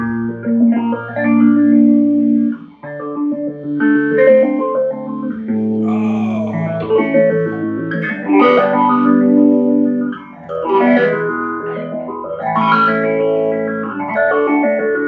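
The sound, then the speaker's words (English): Electric guitar played through a Boss PH3 phase shifter pedal on a favorite setting: sustained chords and picked notes with a swirling, sweeping phased tone that rises and falls over and over for about fifteen seconds, with no talking. “I just plugged up a Boss PH3 phase shifter, and this is my favorite setting on it.”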